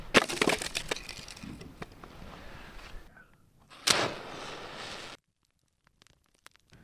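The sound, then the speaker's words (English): Spruce and birch firewood being handled to build a fire: scraping, crunching and knocking of wood, one louder burst of clatter near the end, then near silence with a few faint clicks. “we're going to need to build a fire. Nice piece of spruce. A little bit of birch.”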